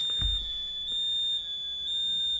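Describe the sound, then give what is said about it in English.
An electronic alarm, set off when the power went out, sounds one continuous high-pitched tone that holds steady and fairly faint throughout, with a brief low thump near the start. “Who set the alarm off? When the power went off. Oh, it set the alarm off?”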